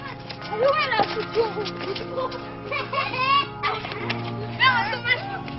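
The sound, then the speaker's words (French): Children playing in the streets of old miners' housing rows, their high, lively voices calling and chattering in overlapping bursts over a steady low hum, loudness rising and falling throughout. “Ces enfants qui jouent dans les rues des vieux corons sont eux aussi fils de mineurs, petits-fils de mineurs.”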